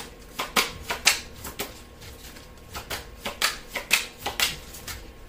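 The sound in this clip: Tarot cards being shuffled and drawn: many short, crisp papery snaps and flicks in an uneven rhythm, with no voices.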